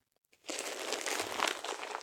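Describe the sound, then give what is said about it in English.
A disposable diaper crinkles as it is taped up snugly: a faint, dry, papery rustle starts suddenly after a short near-silence and continues steadily to the end. “Get this diaper all taped up nice and snug.”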